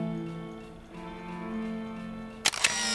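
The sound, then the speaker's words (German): A camera shutter release fires with a sharp double click, two quick loud snaps close together near the end, after a stretch of soft steady tonal hum. “Das Klack des Auslösers schien mir so laut wie eine Bombenexplosion.”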